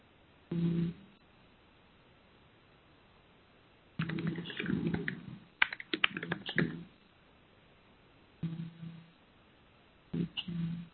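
Faint computer keyboard typing in short bursts of quick clicks, separated by quiet pauses of a second or more.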